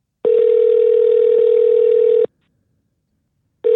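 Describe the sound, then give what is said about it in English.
A telephone tone sounds while a call is being dialed: a steady, single-pitched hum that holds for about two seconds, cuts out, then starts again just before the end. No voices are heard. “let's dial up Adam”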